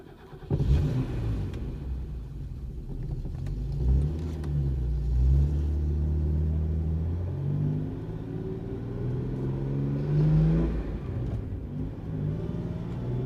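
A car drives along with a steady, low engine rumble. The rumble swells several times as the engine revs, and no voices are heard.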